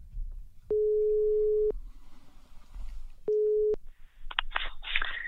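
Telephone ringing tone heard while placing a call: two long, steady, mid-pitched tones separated by a silent pause, followed by a few brief clicks and rustling noises.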